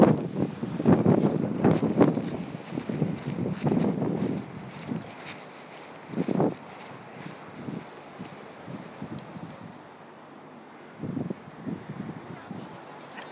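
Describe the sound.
Outdoors, wind buffets the microphone in gusts, with heavy rumbling bursts that come and go irregularly between quieter spells of steady blowing.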